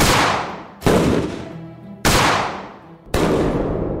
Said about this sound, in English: Then suddenly, without warning, their two sons burst into the room, armed with shotguns, and opened fire.